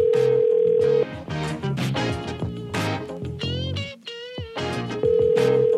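Telephone ringback tone sounding on an outgoing call before it reaches voicemail. A steady, even tone holds at the start and returns at the end, with other varied sounds filling the gap between.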